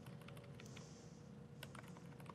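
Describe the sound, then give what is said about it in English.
Quiet typing on a computer keyboard: a rapid, irregular run of soft clicks that continues without voices. “Type, type, type. Type, type, type, tab, tab, type, type, type, type, type, type, tab, tab.”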